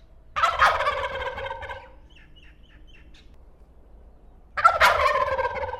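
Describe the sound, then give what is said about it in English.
Wild turkeys gobbling in spring woods: two loud, rattling gobbles separated by a quiet stretch, with faint high bird chirps in the gap between them. “the sounds of spring are abounding at this point, from the turkeys off in the woods”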